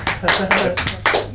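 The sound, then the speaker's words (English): One person claps by hand, a few sharp, loud claps spaced unevenly across the short moment. “Let me just come a bit late on the clap there.”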